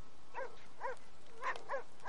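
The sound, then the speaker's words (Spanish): Dog barking in a drama scene: five short, high, yelping barks in an uneven rhythm, fairly faint, with no talk over them. “gira hacia los ladridos”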